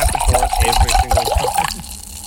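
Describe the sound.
Chardonnay wine glugs out of a bottle into a glass in a quick, uneven burst of gurgling pulses that lasts under two seconds, then stops.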